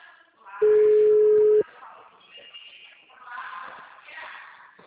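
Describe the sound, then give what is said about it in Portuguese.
A dropped phone call gives one long, steady electronic beep at a single pitch, briefly cutting through soft voices talking on the line before and after it. “Oi, ligação caiu. Oi, caiu.”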